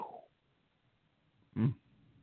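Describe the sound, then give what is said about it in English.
A dog gives one short, fairly loud bark after a quiet stretch, with a faint brief sound at the very start. “Oh my God, that's my dog.”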